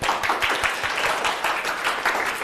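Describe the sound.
Classroom applause welcomes a student group to present, a steady dense patter of many hands clapping at moderate volume throughout, with no voices standing out.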